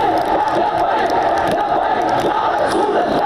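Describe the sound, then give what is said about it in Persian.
Angry protesters in Pakistan chanting "death to France" against the magazine Charlie Hebdo: a dense, loud roar of many voices that stays steady and unbroken throughout. “در پاکستان هزاران معترض خشمگین علیه مجله شارلی ابدو دست به تظاهرات زدند و شعار مرگ بر فرانسه سر دادند.”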